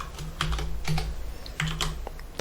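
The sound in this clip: Keystrokes on a computer keyboard while server configuration is typed in: a quiet, irregular run of light clicks with short pauses between bursts.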